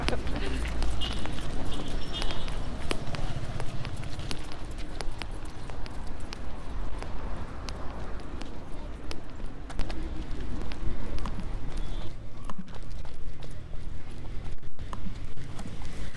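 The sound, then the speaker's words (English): Running footsteps of people out on a run, heard as steady, rhythmic thuds blended into dense, continuous noise at an even loudness throughout. “It's good to have the real noises of our run.”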